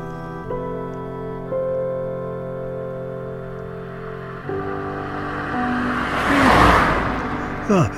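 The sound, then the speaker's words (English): A car passing by on a road, its rushing noise building to a loud peak near the end and then dropping away quickly, over a steady humming background. “I'll go and check my monitors for cars.”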